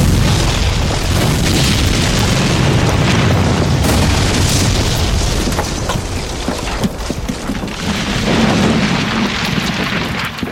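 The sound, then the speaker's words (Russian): A dugout bunker exploding in a war film: a loud, sustained roar of blast and rumble, thick with crackling debris noise, that rolls on unbroken for about ten seconds and swells again near the end. “Блиндаж взрывается.”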